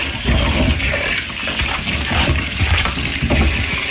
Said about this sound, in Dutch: Het wassen van de bleekselderij voor de celluletjes.